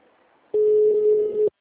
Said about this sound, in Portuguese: Tá chamando.